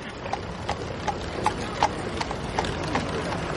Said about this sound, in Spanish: Pisa la calzada. Retrocede. El coche pasa.